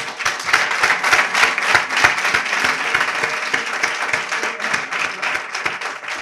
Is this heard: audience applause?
yes

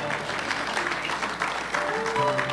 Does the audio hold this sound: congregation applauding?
yes

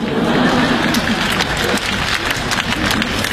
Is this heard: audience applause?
yes

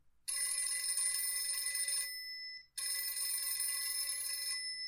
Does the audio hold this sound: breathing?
no

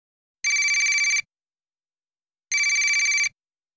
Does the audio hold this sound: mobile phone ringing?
yes

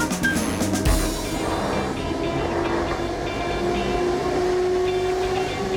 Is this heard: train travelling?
yes

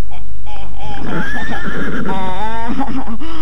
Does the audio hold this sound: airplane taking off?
no

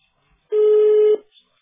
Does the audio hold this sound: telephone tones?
yes

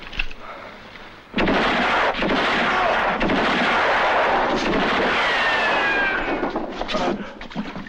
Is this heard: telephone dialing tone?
no

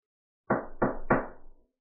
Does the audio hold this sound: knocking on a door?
yes

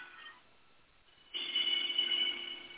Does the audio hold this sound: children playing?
no

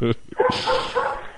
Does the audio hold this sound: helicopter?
no

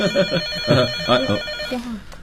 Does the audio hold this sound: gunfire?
no

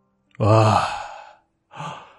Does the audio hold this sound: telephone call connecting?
no

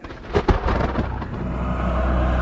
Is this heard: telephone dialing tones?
no

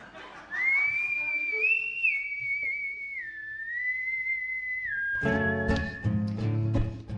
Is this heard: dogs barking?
no

